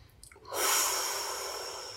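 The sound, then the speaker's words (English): A person draws one long, airy breath that starts after a short pause, swells quickly, then fades slowly as a soft rush of air. “Take a breath.”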